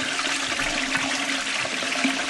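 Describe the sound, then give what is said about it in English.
A toilet flushing, with loud, steady rushing and churning water that fills the whole moment and has no voices over it. “A toilet flush. That's what I did last time.”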